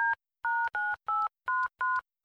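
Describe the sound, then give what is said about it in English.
Telephone keypad dialing tones: a quick run of about seven short, loud two-tone beeps with brief gaps between them, the last one cut off, with no voices. “I'll phone him now.”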